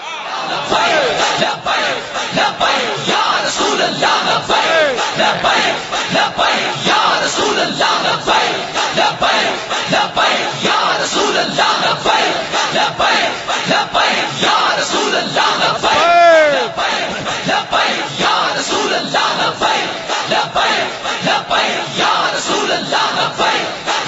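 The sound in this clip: Large crowd loudly chanting the Labbaik slogan, a dense, continuous roar of many voices shouting together, sustained at high volume with little pause throughout.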